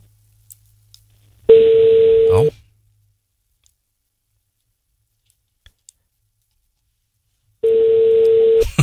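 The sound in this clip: A telephone line tone sounds while a call is being placed: two steady, loud, mid-pitched tone bursts, each about a second long, separated by a long quiet gap with a few faint clicks.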